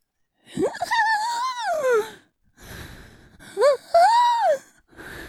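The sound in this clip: A human voice imitates laboured breathing as heard through a stethoscope, with wheezy, voiced gasps and moaning breaths in two bursts split by a short pause, each wavering up and down in pitch.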